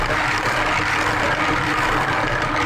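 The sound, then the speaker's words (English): A tombola drum spins for a prize ball draw, giving a continuous, even whirring rumble with a rough rattling texture, steady in loudness for about three seconds with no voices. “Let's just spin it. Spin the tombola. Off we go.”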